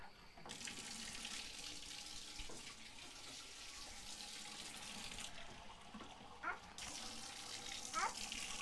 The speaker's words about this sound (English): Mommy's going to turn on the water. Water on.